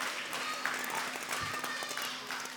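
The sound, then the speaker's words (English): Faint, scattered clapping from an audience during a church talk about popcorn at Easter, thin and uneven over a steady low hum. “it took popcorn for me to get a clap. 3 years, and all it took was popcorn.”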